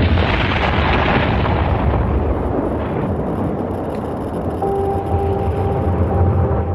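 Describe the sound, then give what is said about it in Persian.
A loud explosion is heard as a broad, roaring rumble that sustains the whole time and eases only slightly toward the end. “اون مکان منفجر شد.”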